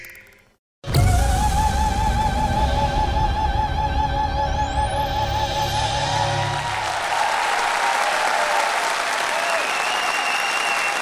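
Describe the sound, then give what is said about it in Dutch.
Closing applause after a theatre performance bursts in abruptly and carries on as dense, even clapping from a large audience for about ten seconds, loud and unbroken with no voices. “Een bekend geluid na elke voorstelling. Het slotapplaus.”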